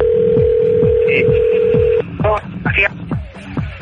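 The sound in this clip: A telephone number being dialed: a steady dial tone holds for about two seconds, then a few short, loud keypad beeps follow in quick succession.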